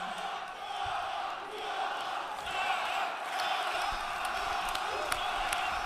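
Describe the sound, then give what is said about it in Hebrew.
A crowd shouts and chants at a Likud party rally in Israel, a sustained roar of cheering voices with whoops and shouted calls rising and falling slightly but never dropping away. “צועקים אוהבים אותך, מה עם שרה? עכשיו צועקים שרה, שרה.”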